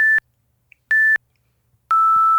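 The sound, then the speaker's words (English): Three short electronic timer beeps, spaced about evenly apart; the first two share the same bright pitch, and the last is slightly lower and held longer, running to the end. “You will have little beeps.”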